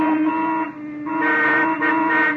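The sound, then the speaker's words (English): Car horns honk in heavy traffic, with several overlapping sustained tones forming a continuous, fairly loud blare that briefly dips before swelling again. “What's everybody honking for? Oh, I don't know. The traffic certainly got heavy all of a sudden.”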